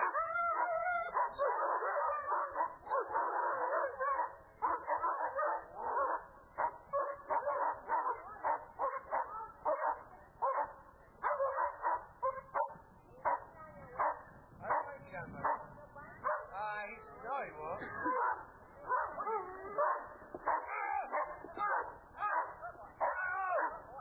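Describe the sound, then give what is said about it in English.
A dog barks, howls and yips fiercely as it attacks after being released from its leash. The sound is loud, dense and nearly unbroken for the whole clip, with a rapid run of many overlapping barks and harsh, wavering howls. “Susie told the dog to watch and let go of the leash, and the dog attacked”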